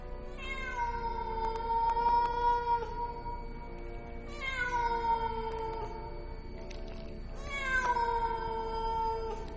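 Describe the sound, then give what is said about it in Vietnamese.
A stray cat yowls mournfully in three long, drawn-out wailing cries, each loud and tonal with rich harmonics and a wavering pitch, separated by short gaps. “Vũ khựng lại, thấy một con mèo hoang từ đâu lao đến. Nó kêu lên những tiếng não lòng kinh khủng”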